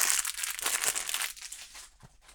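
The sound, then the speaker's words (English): Polythene wrapping crinkles as it is pulled off an Amazon Fire tablet, in a quick run of rustling bursts that grow sparser and fainter toward the end. “The Fire itself comes in a polythene wrapping, so let's just unwrap that now and see what we get for our money.”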